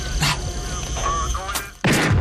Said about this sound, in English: Shoot the radio.